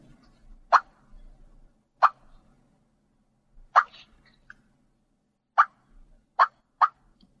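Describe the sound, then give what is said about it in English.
A turkey call imitates a hen turkey's cluck: six sharp, short, loud clucks at irregular intervals, each alone against near silence. “A cluck being a simple call that a hen uses just to kind of let other turkeys know they're in the area, and they do it involuntary sometimes just as they're walking and feeding. It sounds like this.”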